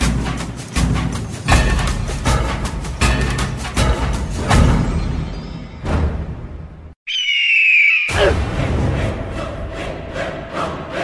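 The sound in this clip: A frightened owl gives a single harsh squawk, about a second long, near a witch's house in the forest. Loud orchestral music plays before and after it.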